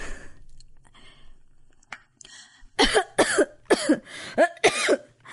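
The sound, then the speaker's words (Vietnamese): A woman sick with tuberculosis coughs from her bed in the next room: a run of several harsh, loud coughs following a few faint breathy sounds, with no talk. “Mẹ tôi nằm bên phòng kia, ho lên những tiếng rất rõ.”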